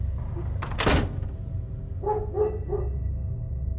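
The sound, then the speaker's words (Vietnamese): Dogs barking at night in a village: a single dull thump comes first, then three short barks in quick succession, all fairly faint over a low background rumble. “Nửa đêm bắt đầu có tiếng chó sủa râm ran từ đầu này chuyển qua đầu kia của làng.”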